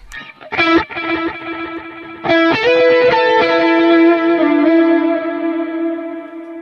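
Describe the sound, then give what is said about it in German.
Guitar notes run through a pitch-delay effect with a shimmering octave. A few picked notes bloom into thick, sustained, layered harmonics with a slightly distorted edge, ringing on and slowly fading. “Soll irgendein Pitch-Delay sein.”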